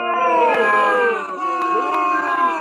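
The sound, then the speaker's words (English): A live studio audience voicing disapproval, with drawn-out crowd groans that swell twice and sustain a wavering, tonal pitch at moderate volume. “The live studio audience didn't like you bragging about what receivers you...”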